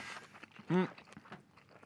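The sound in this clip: Soft, wet chewing of a sausage in lompe with pineapple, made up of quiet crunches and mouth clicks with a brief voiced sound in the middle.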